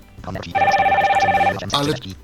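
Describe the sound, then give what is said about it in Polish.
Telephone ringing: a single warbling electronic ring burst lasting about a second, with talking around it. “Ktoś tam dzwoni.”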